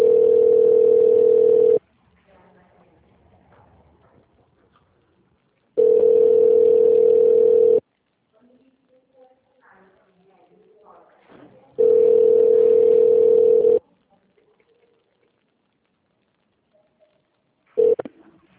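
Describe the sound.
Ringback tone from a telephone call to a certification helpline, heard as three long, steady mid-pitched tones of about two seconds each, separated by quiet pauses with faint background noise; a fourth tone starts just at the end.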